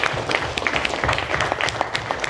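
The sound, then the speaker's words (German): Applause from an audience after a speaker finishes a presentation: scattered, fairly sparse hand claps of moderate loudness over a low background hum, with no voices. “Sehr schön. Applaus für Leon,”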